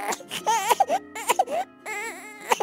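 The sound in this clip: Infant crying as a sound effect in a dramatized Bible story about Pharaoh's soldiers seeking out baby boys: several wavering wails in separate bursts, the pitch rising and falling within each cry.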